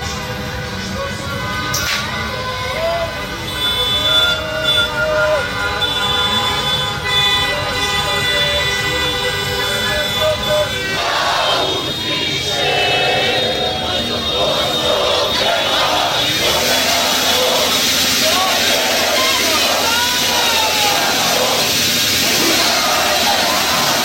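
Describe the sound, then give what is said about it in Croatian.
Football fans celebrate in the streets of Zenica as car horns toot and wailing siren-like tones rise and fall over a constant wash of traffic noise. “Hiljade navijača izašle su na gradske ulice, slaveći do duboko u noć.”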